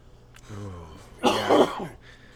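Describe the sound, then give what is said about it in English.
A single harsh, phlegmy cough bursts out after a short, low throaty vocal sound. It is fairly loud and heard alone, with no talk over it. “I don't know if that was a sneeze or a cough. Cough. Okay. Nice, healthy, phlegmy one.”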